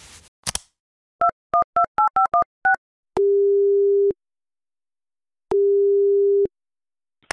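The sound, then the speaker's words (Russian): While a call is placed, seven quick touch-tone keypad beeps sound, followed by two long, steady single-pitch ringback tones with a silent gap between them. “Сейчас буду звонить своему знакомому психологу и сомнологу Денису Игоревичу Бурчакову.”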